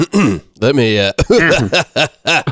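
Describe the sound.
Throat clearing from a voice working to clear it out, heard as several loud, gravelly, voiced bursts in quick succession with short gaps between them and no other sound.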